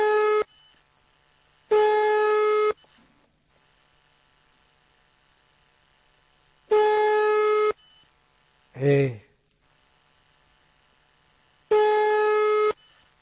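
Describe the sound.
An unanswered telephone ringing tone sounds as four steady, buzzy tones, each about a second long and spaced several seconds apart. A brief voice is heard between the last two.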